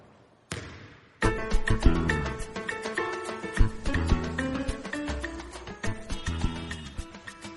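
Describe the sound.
A ball bounces during children's play. A single thump is followed by a busy run of many sharp hits in an irregular rhythm.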